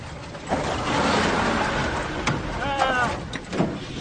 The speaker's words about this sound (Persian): ماشین روشن شد.